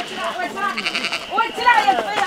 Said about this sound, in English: It's a family affair to round up 1,400 sheep from the surrounding hills and into the barns.